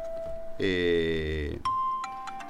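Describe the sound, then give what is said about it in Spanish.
A mobile phone ringtone plays a sustained buzzy electronic tone, then a run of bright, sharp beeps at a steady pitch. “Sí, no te asustes porque mi celular suena todo el tiempo. Yo ya lo tengo incorporado al timbre del celular.”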